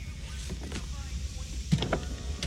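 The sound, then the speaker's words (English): Car window rolling down during a police traffic stop, a faint motorized whir mixed with other low vehicle sounds. “Take your hands off the wheel, roll your window down.”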